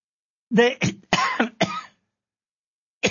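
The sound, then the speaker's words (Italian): A person coughs in a quick run of several rough, voiced coughs, then gives one more cough after a short silence. “scusatemi per la tosse, sempre.”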